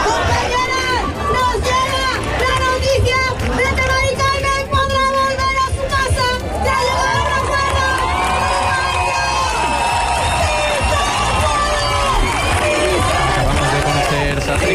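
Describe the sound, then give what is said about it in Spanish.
Protesters in Seville sing together while shaking their house keys, a dense jangling of metal over a continuous, loud crowd chant with cheering voices throughout. “Los manifestantes siguen cantando y agitando los llaveros de sus casas.”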